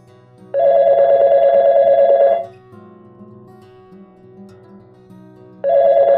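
A telephone rings with an incoming caller: one loud, steady electronic ring lasting about two seconds, then a pause filled with low hum, then a second ring begins.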